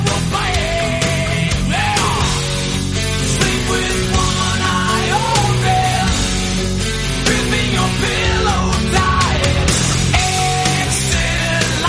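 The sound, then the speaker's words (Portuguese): An intro jingle for a show about guitars plays loud and full: dense music with sustained tones and a steady driving beat, running at even volume throughout with no talk over it. “Solta a vinheta!”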